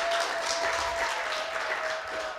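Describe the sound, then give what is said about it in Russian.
A gathering gives faint applause to thank the cooks who prepared a meal. The soft, steady clapping holds for a couple of seconds and eases slightly at the end. “Это благодарность всем людям. Вот это наши аплодисменты. Благодарность людям, которые трудились в приготовлении пищи.”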